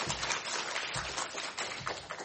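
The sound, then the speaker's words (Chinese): An audience applauds a husband and wife, producing a dense, steady wash of clapping that holds at an even level throughout. “啊，再用一次掌声鼓励，给他们一下鼓励。”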